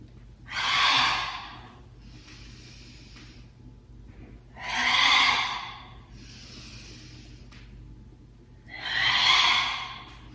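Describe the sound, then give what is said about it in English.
Slow, deep breathing, drawn in and exhaled out through the mouth during a guided movement exercise: three long, airy breaths, evenly spaced, each swelling and fading over a second or two, with quiet gaps between. “where you breathe in as you come up, exhale out through the mouth on your way down. Inhaling up, exhaling down.”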